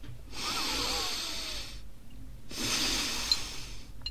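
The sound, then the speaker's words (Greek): Slow breathing in and out through the nostrils during a guided relaxation exercise: two long, even airy hisses separated by a brief pause. “Από τα ρουθούνια εισπνέουμε, από τα ρουθούνια εκπνέουμε. Πάμε άλλη μία. Και άλλη μία.”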